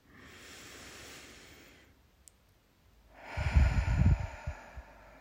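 Fast breathing in and out during a breathing exercise, heard alone: a drawn-out breath, a brief pause, then a louder, gusty breath broken into several quick puffs.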